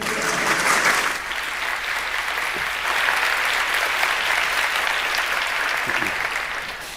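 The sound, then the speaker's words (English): Audience applause greets a speaker at DjangoCon Europe: dense, steady clapping from many hands that carries on evenly for several seconds before tapering slightly at the end. “I know what I'm doing. Relational databases and stuff, so let's give him a hand.”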